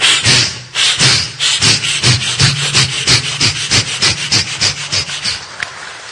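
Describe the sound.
A voice imitating a saw cutting wood: many regular, breathy rasping strokes in a steady back-and-forth rhythm, each a short scraping burst, continuing throughout at a fairly loud level.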